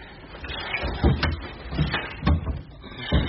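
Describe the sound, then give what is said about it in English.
A Florentine cabinet with inlay is opened, giving a few soft wooden knocks and thuds spread across a few seconds. “I must have the Florentine cabinet moved. The light quite misses the inlay. Open it.”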